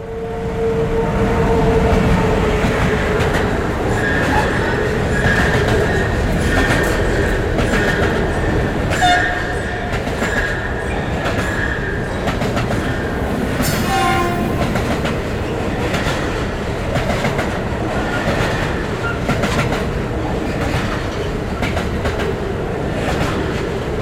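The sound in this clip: A train rolling past on long welded rails, a steady, loud rumble and metallic roar that fills the whole clip, with no talk.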